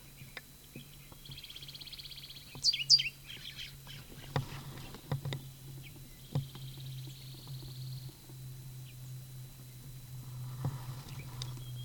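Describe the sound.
A bird calls in a canyon with a few thin, high, chirping bursts spaced across the stretch. A steady low hum and scattered soft clicks sit underneath. The calls are faint overall.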